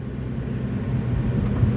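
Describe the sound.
A car drives along St. Clair Street past the public library on 3rd Street in Dayton, a steady low rumble of road and engine noise heard from inside, even in level and without speech.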